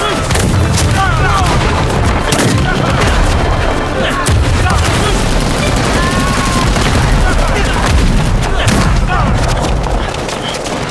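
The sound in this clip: Gunfire in battle, with machine-gun and rifle fire: loud, dense and continuous, with rapid bursts and overlapping shots throughout and voices among them.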